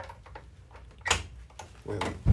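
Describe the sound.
A door is shut and locked, giving a few soft clicks and knocks, with a sharper thump near the middle and another at the very end.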